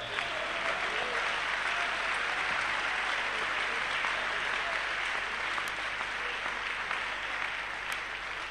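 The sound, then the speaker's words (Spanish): Loud audience applause at a Spanish-language church service, praising God: a thick, continuous wash of many hands clapping that stays steady and even for about eight seconds. “Un aplauso para nuestro Dios.”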